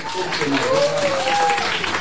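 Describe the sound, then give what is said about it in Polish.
An audience at a Polish Radio Trójka stand applauds to welcome a singer from a band, producing a continuous, even patter of many claps with a voice speaking over it. “Mam do Państwa prośbę, czy Państwo mają wolne ręce? Bo jeśli Państwo mają wolne ręce, to proszę przywitać Asię Chacińską z zespołu Biskit.”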